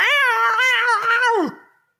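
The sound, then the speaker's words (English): A cat yowling: one loud, wavering cry lasting about a second and a half that ends in a downward slide in pitch, then silence. “It's Cover Cat. It's Cover Cat.”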